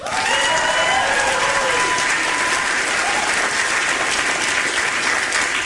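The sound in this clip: Audience applause and cheering as participants are introduced one by one, a dense, loud and steady wall of clapping that carries on without a break, with a few whoops rising above it near the start.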